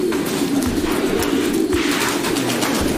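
Pigeons, a paired male and female, coo in a low, steady murmur that runs throughout at moderate loudness.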